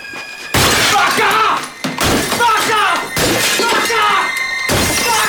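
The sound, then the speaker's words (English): Objects on a shelf smashed with a chair leg: a loud run of many crashing, shattering impacts with breaking debris, coming in uneven bursts with only short gaps between them. “He smashes everything on the shelf.”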